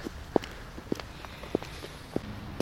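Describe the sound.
Five footsteps of someone walking outdoors on a return path past a rope park, evenly spaced soft thuds over a faint background hiss.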